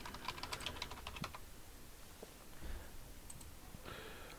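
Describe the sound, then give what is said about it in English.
Typing and clicking on a computer keyboard: a dense burst of quick keystrokes at the start, then sparse, scattered clicks over a faint steady background hum. “Actually, go to Google. Type in Google again.”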